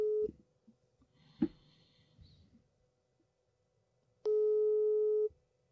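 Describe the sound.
The ringback tone of an unanswered outgoing phone call: a clipped tone at the start, then a long quiet stretch with faint clicks, then one steady mid-pitched tone lasting about a second.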